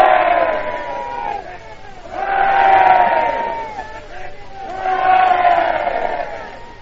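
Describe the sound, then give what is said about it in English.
A tumultuous crowd roars and cheers a welcome for an arriving statesman who greets Lord Halifax and the French ambassador, the shouting surging in three loud waves that ebb between peaks. “Now, you'll hear that this welcome is so tumultuous that I can hardly speak to you from this point at all.”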